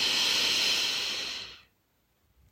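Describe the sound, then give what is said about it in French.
A long, deep inhale with a soft, airy hiss that holds steady for over a second and then tapers off into near silence. “Inspire.”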